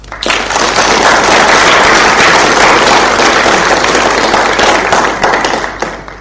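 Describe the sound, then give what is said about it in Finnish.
Applause for the organizing team at an association event: a loud, dense crackle of many hands clapping that holds steady for about six seconds, with no voices standing out. “Annetaan heille ja koko järjestelijätiimille kunnon aplodit.”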